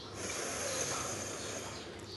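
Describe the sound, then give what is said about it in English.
A long, steady inhale through the right nostril during an alternate-nostril breathing exercise, a soft airy hiss that runs throughout. “One more round. Inhale from the right nostril.”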